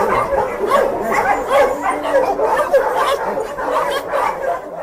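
Many dogs barking and yelping at an animal shelter housing about 700 dogs, a loud, dense, continuous chorus of overlapping barks with no pauses.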